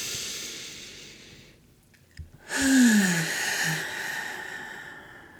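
A deep breath taken after a short pause: a long airy hiss of breathing, with a low voiced sigh that slides downward in pitch near its start.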